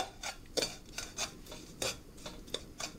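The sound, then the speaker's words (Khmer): Scraping and rubbing of a utensil stirring sugar in a pan over a hot fire, in repeated rhythmic strokes of moderate loudness, with no talk. “ខ្ទះបានដាក់នៅលើភ្លើងក្តៅហើយនាងខ្ញុំនឹងដំបងនោះគឺនាងខ្ញុំនឹងដាក់ស្ករមកល្មមបានហើយកុំឲ្យច្រើនពេកកូរវា”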